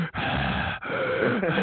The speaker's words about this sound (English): what's going on with this heavy breathing?